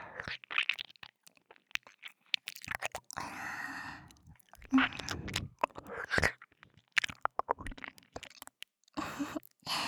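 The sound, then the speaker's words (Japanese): Slow eating and chewing, starting from the outside, comes through as soft, close mouth sounds, wet chews and small crunches in an irregular rhythm, quiet overall with brief louder bites. “はい、それではいただきます。こっちも初めは外側からゆっくり。”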